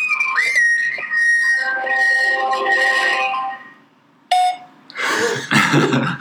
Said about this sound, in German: Sie eine Nachricht nach dem Signalton.